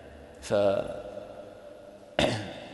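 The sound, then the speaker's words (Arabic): Throat clearing is demonstrated deliberately during a talk on prayer: two short, voiced, raspy 'ahem' sounds made by a man, spaced well apart. “طيب، قالوا إذا تنحنح”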